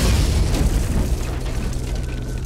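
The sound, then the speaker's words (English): A deep explosion as a building blows apart and collapses into bricks and cinder blocks, heard as a heavy, continuous low rumble that fills the whole moment with no voices. “An explosion shook the entire building, and it collapsed, a tidal wave of bricks and cinder blocks cascading outward to bury the droid.”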